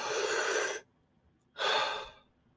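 Deep breathing in through the chest: a long, airy breath, a short pause, then a second breath that swells and slowly tapers off. Both are soft and breathy, with no talking.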